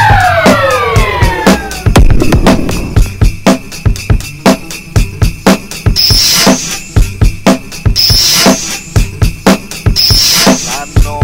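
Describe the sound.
A police car siren wails with falling pitch over the first two seconds, then gives way to a loud, pulsing rhythmic beat of repeated sharp hits that continues to the end.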